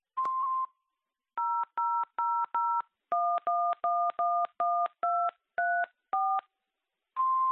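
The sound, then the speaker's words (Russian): A Russian answering machine gives a short steady beep, then many rapid touch-tone dialing beeps in quick groups, ending with another steady beep. “Оставьте, пожалуйста, ваше имя и номер телефона после звукового сигнала.”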